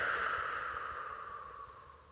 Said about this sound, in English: Take a breath.